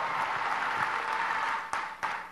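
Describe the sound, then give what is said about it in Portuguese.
An audience applauds at a formal public session, a steady patter of many hands at moderate loudness, with two brief sharper bursts near the end. “a quem aqui pedimos uma salva de palmas pela luta maravilhosa.”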